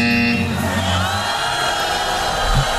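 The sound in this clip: A crowd cheering sound effect is played on a radio quiz show, a brief, loud burst of massed cheers and whoops that holds steady from start to finish.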